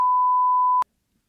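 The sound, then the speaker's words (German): A censor bleep covers a name: one steady, pure high-pitched tone holds for under a second, then cuts off abruptly into silence. “vielleicht können wir alle Namen biepen”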